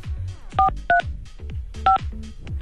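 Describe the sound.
Touch-tone keypad beeps as a telephone number is dialed: three short, steady dual-tone beeps at uneven intervals, with a faint low rumble between them.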